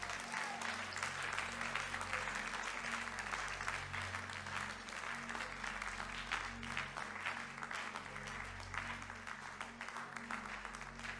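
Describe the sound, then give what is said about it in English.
Members of a church audience clap their hands together during a prayer, producing continuous dense applause at a steady level for the whole stretch, with low sustained tones running beneath it. “Clap your hands and pray that prayer.”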